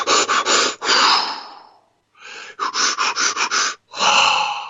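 Deep pranayama-style breathing in a kundalini breathing demonstration: loud bursts of short, forceful breaths alternate with longer, drawn-out deep breaths, heard alone with a brief pause midway.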